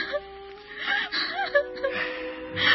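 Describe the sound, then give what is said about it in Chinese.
A woman cries sorrowfully, with soft wavering whimpers, breathy gasps and catches of breath coming in short, uneven bursts at a fairly low volume. “别哭得那么伤心”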